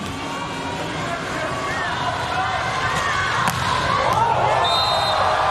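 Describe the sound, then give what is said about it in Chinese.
A Japanese volleyball player strikes a serve for a direct ace. Two sharp smacks ring out over a constant crowd roar and commentary. “ace 球，发球直接得分。”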